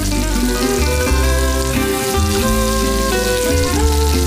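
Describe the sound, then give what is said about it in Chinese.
Local Erjingtiao chili flakes sizzle in hot oil as they are stirred, giving a loud, steady crackling fry that continues without pause throughout. “倒入本地二荆条辣椒面，持续搅拌，释放辣味因子。”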